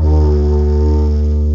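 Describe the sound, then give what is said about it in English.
A didgeridoo drones in one loud, steady, very low tone rich in buzzing overtones, held unbroken from start to finish. “that is the sound of me on a didgeridoo.”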